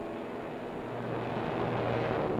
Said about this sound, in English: Next to go, nose wheel lifted and wing flaps down for maximum lift and the quickest possible takeoff.